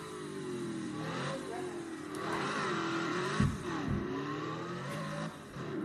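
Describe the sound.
A stock car engine revs in a racing video game on a lap around Phoenix, a steady mid-pitched drone whose tone sweeps up and down, dipping briefly midway before climbing again.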